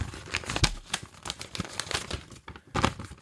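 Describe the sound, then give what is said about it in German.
Paper crinkling and tearing as a sealed envelope is opened: a quick run of sharp, dry crackles and rips over about three seconds, moderately loud, with no talking. “So, ich öffne den Umschlag.”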